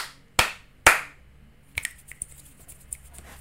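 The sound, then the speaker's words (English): Two sharp, loud hand claps in quick succession, then a pause and a looser run of lighter, crisp finger snaps, several of them scattered irregularly to the end. “3 claps, bunch of snaps.”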